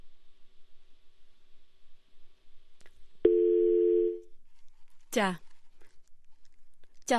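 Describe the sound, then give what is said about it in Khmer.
A telephone tone sounds after a call drops. A single steady tone lasts about one second against a low background hum, then stops. “ដោយសារតែមានបញ្ហាបច្ចេកទេសមួយចំនួនយើងបានដាច់ពីលោកសុវណ្ណបាត់ទៅហើយ”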